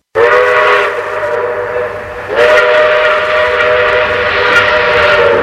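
Steam train whistle sounding one loud, sustained, reedy blast that swells again partway through and holds steady to the end, with no voices.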